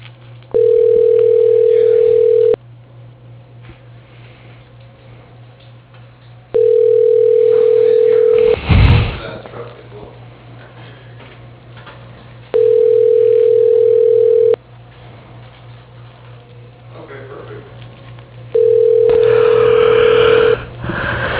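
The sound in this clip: Ringback tone on a telephone line while a call to an office desk is transferred: four steady buzzing tone bursts of about two seconds each, evenly spaced by longer pauses, over a constant low line hum.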